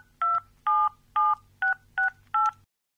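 Six short electronic touch-tone beeps as a telephone number is dialled, evenly spaced and loud, each a steady two-tone chirp, followed by silence.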